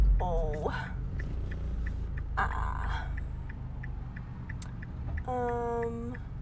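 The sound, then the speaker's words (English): Steady low road rumble inside a moving car, a continuous deep drone that holds evenly throughout, with a few brief higher tonal sounds above it. “Sorry, I'm trying to drive right now a little bit. So if you just give me one moment, because I don't want to get in a car accident, so I'm going to pay attention to the road and check the road,”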